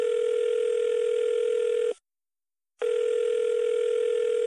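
Telephone ringing tone on an unanswered call home. A steady, buzzy, single-pitched tone drops out for one short silence, then resumes, with no voices.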